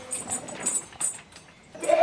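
Goats bleating on a mountain farm pasture full of bushes and leaves in the Alps, a few short, faint, rough calls, with a louder bleat at the very end of the brief clip.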